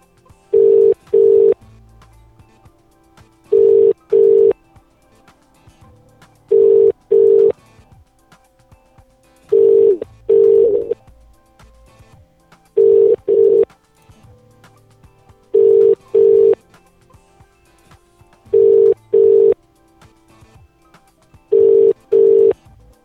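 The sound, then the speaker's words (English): Telephone call tones: eight pairs of short, steady mid-pitched beeps repeat at an even pace of roughly one pair every three seconds, clear and alone with no voices. “We're gonna call this one.”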